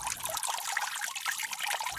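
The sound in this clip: Water poured for a drink, a steady splashing trickle lasting about two seconds.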